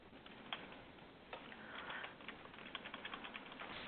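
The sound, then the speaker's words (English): Faint clicking of typing on a computer keyboard, a loose run of light, irregular key taps that grow quicker toward the end. “And I have to tell my computer it's Philadelphia, not Philly, because I just typed in Philly and it didn't know what I was talking about.”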